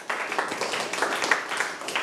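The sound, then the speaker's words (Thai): Classroom applause as pupils clap for a classmate's answer: a dense, steady patter of many hands clapping together, moderately loud, with no talk over it. “ตอบมาได้ครบถ้วนมากปรบมือให้เพื่อนครับ”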